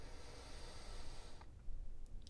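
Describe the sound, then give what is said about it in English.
A deep inhale during a guided body scan meditation, faint and soft: a hissy, airy draw of breath over a steady background wash. “Take a beautiful inhale.”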